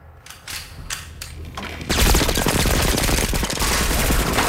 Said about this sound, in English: Two men riddle the confessional with bullets.